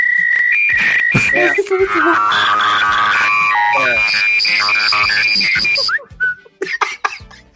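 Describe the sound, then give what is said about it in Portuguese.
A mobile phone's default whistle ringtone sounds as bright, loud whistled notes in a quick melodic pattern over layered tones, then breaks into a few short, choppy bursts near the end. “Cara, como eu odeio esse toque do assovio.”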